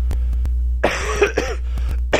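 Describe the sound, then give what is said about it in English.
A person coughing and clearing their throat: a rough, raspy cluster of a few coughs and throat-clearing sounds, then one more short cough at the end, over a steady low electrical hum. “Sorry about all the coughing in this show, but, and clearing my throat”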